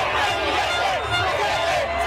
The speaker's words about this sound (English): Cheering in the streets of Buenos Aires for Javier Milei, who's drawn comparisons to Donald Trump.